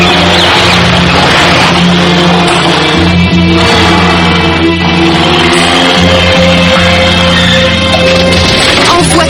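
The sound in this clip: A car engine revs loudly and continuously on a road, with a dense, roaring noise that holds steady throughout and slight swells in intensity.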